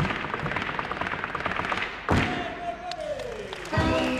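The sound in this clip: Bolas on ropes, twirled one in each hand, crack against a special parquet floor in a performance act. Sharp, hard thuds sound over a noisy background, with two heavy strikes standing out.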